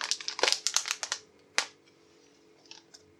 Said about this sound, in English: Next, take the test packet, check it's in date, and if that's the case, open it up by tearing at the end.